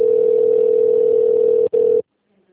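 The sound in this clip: A telephone connecting tone plays on a company's phone line. It is a steady, loud, single-pitched hum with one very short break near the end, then it stops abruptly.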